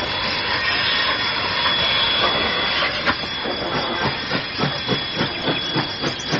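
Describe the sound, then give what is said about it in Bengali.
A large train roars past on the rail line with a heavy, hissing rumble that holds steady, then breaks into a quick, regular clatter of wheels over the track joints as the cars go by. “দূর থেকে গনগনে একটা শব্দ ভেসে এসে জানিয়ে দিচ্ছে train আসছে।”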